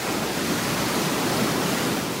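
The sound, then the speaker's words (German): Sea breakers surging far below against black, glossy basalt columns at the far western coast, heard as a dense, steady roar of surf with no separate crashes standing out. “An der Straße in den äußersten Westen krachen tief unten Brecher gegen schwarzglänzende Basaltsäulen.”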